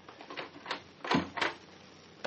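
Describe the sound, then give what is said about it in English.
Knocking on the locked door of a historic house, a few dull raps spaced unevenly and moderately loud, with no talk over them. “Try knocking. Someone's coming.”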